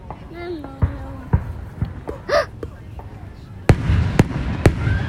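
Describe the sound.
Weeping willow fireworks at an Independence Day celebration: a few sharp booms followed by crackling hiss, with people talking and exclaiming over them.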